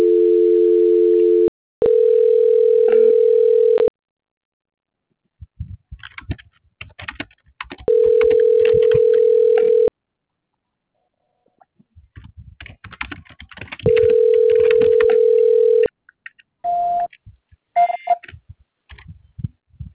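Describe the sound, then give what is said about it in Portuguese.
Telephone call transfer tones: several long, steady beeps, the first a lower double tone, broken by stretches of clicking and tapping, then a few short, higher beeps near the end. “Estou direcionando ligação. Tá. Transferência.”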